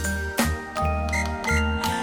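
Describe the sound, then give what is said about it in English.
Bells ring out in a bright, jingling chime. Several struck tones overlap with sustained ringing across the short passage, with no voices. “When Buddy Fly flew in the pocket, bells began to ring.”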